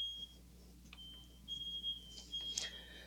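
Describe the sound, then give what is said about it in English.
Thin, high-pitched smoke alarm beeps from a kitchen downstairs, one of several interlinked alarms: faint intermittent tones, some short and some drawn out, over a low steady hum with soft rustling. “I would imagine that's the kitchen downstairs. It's tied, the smoke alarms are tied together.”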